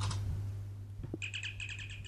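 Electronic chirping from a toy sci-fi communicator or tricorder: a quick run of high, bird-like pulses in a steady repeating rhythm, following a few soft clicks over a low background hum.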